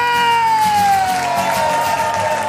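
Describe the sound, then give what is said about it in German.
Audience applauding and cheering at a comedy show, a dense bed of clapping with a sustained high tone sliding slowly downward in pitch over it. “Alle bekommen von euch einen riesigen, fetten Applaus.”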